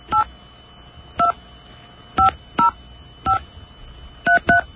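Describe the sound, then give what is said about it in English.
Telephone keypad tones dialing an international call with the 011 prefix and a country code: seven short, loud dual-tone beeps in an uneven rhythm, the last two close together, with no other sound. “So let's dial the old 011, and then the special country code there.”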